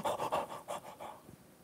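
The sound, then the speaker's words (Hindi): A voice imitates panting, as if badly out of breath: a run of quick, rhythmic huffing breaths that grow weaker and trail off toward the end. “सांस फूलती जा रही है”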